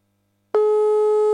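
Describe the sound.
A steady telephone tone sounds while a call is placed. It starts abruptly after a short silence and holds one constant, clear pitch to the end.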